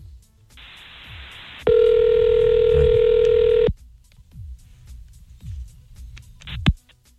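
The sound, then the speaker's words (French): A telephone line rings while someone is called back: a steady hiss on the line, then one long, loud, even ring tone of about two seconds, followed by quieter clicks and faint noise. “On va quand même le rappeler.”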